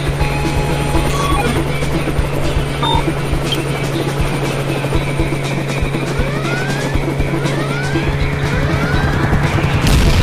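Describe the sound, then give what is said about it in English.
Helicopter rotors beat loudly and steadily over a dense, low mechanical drone, unbroken for about ten seconds. “I don't know if I can get us away from that helicopter.”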